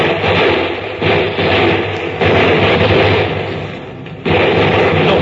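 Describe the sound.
Gunfire in a radio drama battle scene roars as a loud, dense, continuous barrage of shots, broken only by a few brief lulls before the firing surges again.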